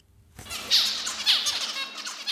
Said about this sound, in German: Das sind Zebrafinken. Ihr Nachwuchs belauscht das Gezwitscher schon im Ei.